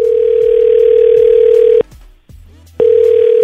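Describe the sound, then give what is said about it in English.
A telephone dial tone sounds while a call is placed: a loud, steady single-pitch hum runs for nearly two seconds, breaks off into a short quiet gap with faint clicks, then resumes unchanged. “So let's give Nick a call.”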